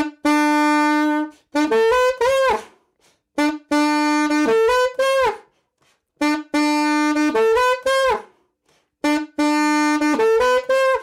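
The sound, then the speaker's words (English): A saxophone plays its main riff slowly on the notes B, F sharp, G sharp and A. The phrase repeats four times, each a long held note followed by a few quick rising notes, played alone with short silences between phrases. “The main riff, the saxophone riff. Just have a listen.”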